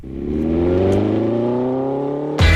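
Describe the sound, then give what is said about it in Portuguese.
Off-road buggy engines accelerate hard through mud and dust at a Buggy Experience event in Arouca, a loud continuous engine drone whose pitch climbs steadily before an abrupt change in the noise near the end. “Acelerar na lama e no pó, andar aos saltos sobre rodas e lavar a vista. É o Buggy Experience organizado pela Naturway.”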